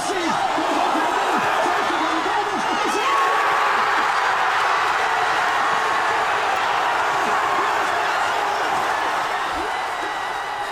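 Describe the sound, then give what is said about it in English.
Thousands of football fans at the Ovo Hydro in Glasgow roar as they watch a World Cup match, a dense, loud crowd noise that holds steady throughout with voices mixed in. “No wonder then that this was the noise of the thousands of people who had packed out the Ovo Hydro in Glasgow to watch the match.”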